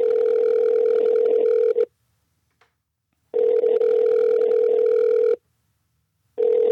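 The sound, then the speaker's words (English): Telephone ringback tone as an outgoing call rings out unanswered: a steady, loud electronic tone in two long bursts separated by silence, with a third burst starting just as it ends. “You want to call Wiley, wish him happy birthday? Yeah, of course I do. Yeah, let's do that.”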